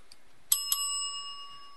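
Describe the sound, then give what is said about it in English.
Two quick bright dings from a small bicycle-style bell, struck in close succession and then left ringing as a clear high tone that slowly fades. “Well, I haven't had any comments on my bell, so I guess it's okay. Y'all like the bell?”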